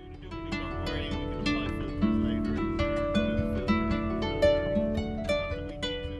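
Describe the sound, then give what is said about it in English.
Harp played on the deck of a Galway hooker sailing the Atlantic Ocean, with plucked notes ringing out in a flowing, steady melody and chords, moderately soft and without voices. “and she's playing her harp on the deck of a Galway hooker as it sails the Atlantic Ocean.”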